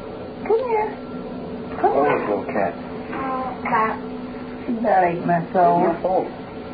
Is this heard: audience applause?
no